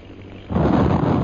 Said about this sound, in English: There goes Holbrook's first bomb.